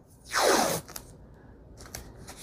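Scissors make one quick, loud snip as a paper planner page is trimmed to fit. Faint, soft paper-handling rustles follow.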